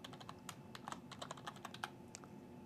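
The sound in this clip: A password being typed on a computer keyboard: a quick, uneven run of many light key clicks with no voices.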